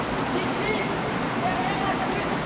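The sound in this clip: A waterfall's steady, dense rushing roar fills the whole clip, loud and unbroken, with no distinct splashes or pauses.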